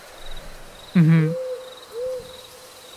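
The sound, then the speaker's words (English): An owl hoots, giving a low tonal note followed later by a fainter second one. A person murmurs briefly alongside, over a soft, steady background hiss. “Here you can hear an owl hooting, and you know it's an owl”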